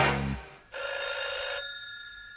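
A telephone bell rings in a single bright burst of about a second, then fades out.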